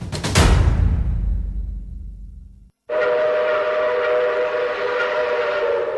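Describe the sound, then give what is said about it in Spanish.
A train arriving at a station: a sharp whistle blast over deep rumble that slowly dies away, then after a brief silence a loud, steady rolling roar with a constant tone that runs to the end. “Próxima estación Floresta. Estación con acceso a Fitosalud.”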